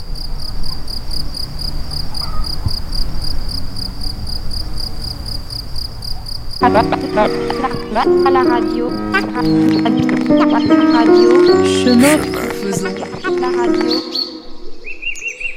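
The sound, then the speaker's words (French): Birds chirp and crickets trill steadily in a natural park ambience. Music enters about midway, and the high, even cricket trill carries on over it. “Et oui, des oiseaux, des grillons, ambiance assez naturaliste finalement, des sons proposés par Anne Dubos”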